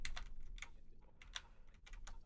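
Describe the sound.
Computer keyboard keys being pressed, including Shift and the Ctrl+X shortcut while moving a file onto a device's memory card: a few sharp, dry clicks at an uneven pace, with no voice.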